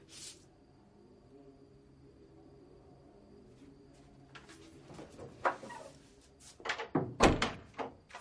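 A door is opened, with a note lying on the floor beside it. A faint low hum is followed by soft rustling and a few dull clunks and knocks, growing louder toward the end.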